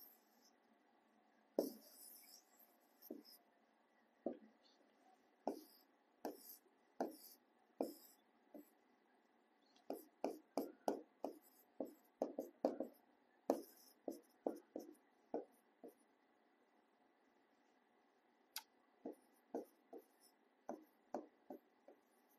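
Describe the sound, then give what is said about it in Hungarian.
Someone redrawing a sketched diagram: many faint, short scratchy drawing strokes, some spaced out and others in quick clusters, with a quiet gap before a final run of strokes, and no talking. “Ezt újra rajzolom, mert bénán sikerült,”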